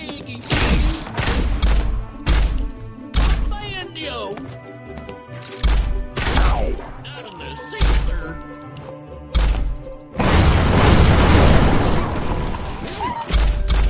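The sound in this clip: Shotgun blasts in a low-poly, fast-action, old-school Quake-style shooter video game, set among monsters and armed veterans, ring out as many heavy booming shots in quick bursts over busy game sound.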